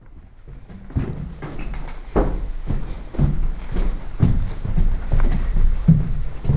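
Footsteps climb a staircase in many steady, evenly spaced thuds that keep a regular walking rhythm. The steps sound firm and fairly loud, and no talking is heard.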